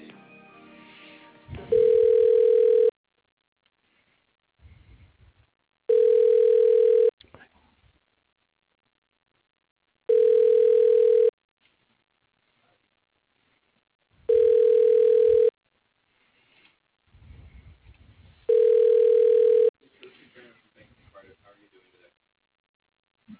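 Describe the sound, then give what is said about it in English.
Telephone ringback tone while a call is transferred: five long, steady, even-pitched tones spaced evenly apart, with faint noises in the gaps between them. “Thank you again. Your call is being transferred.”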